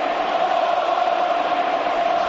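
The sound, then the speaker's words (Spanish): Stadium crowd at the Bernabéu chanting Luka Modric's name during a football match, a dense, steady roar of many voices that holds at an even, loud level throughout with no single voice standing out. “Así, esto es lo que está respondiendo a Luka Modric el Bernabéu por esa acción. Falta de Di María, de todas formas. Y ahora el nombre coreado en el estadio.”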